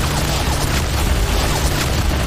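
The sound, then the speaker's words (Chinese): Artillery shelling explodes in a Chinese Civil War battle as shells blast defensive bunkers, a loud, dense, continuous low roar and rumble with no clear separate bursts and no voices. “蒋王的炮火太厉害了，把他们该建的碉堡全炸了。”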